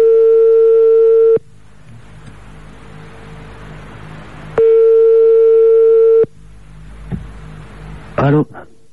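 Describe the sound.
Telephone ringback tone while placing a call: two long, steady, mid-pitched rings separated by a long gap of faint hiss, followed by a brief click and rustle near the end.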